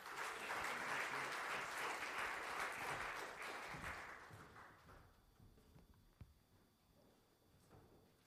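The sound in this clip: A church audience applauds a speaker being welcomed to the front during a service. The clapping is loud and dense for about four seconds, then thins and fades to scattered claps.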